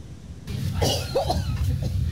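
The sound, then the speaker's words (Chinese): Coughing from a simulated patient coughing up blood and struggling to breathe during a hospital Ebola infection drill: a few harsh, rough coughs over a steady low background hum. “咳血加剧，呼吸困难，疑似伊波拉病毒感染。”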